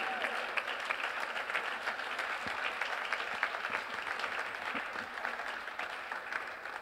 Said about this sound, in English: So I want us to put our hands together. Let's welcome our mother once again.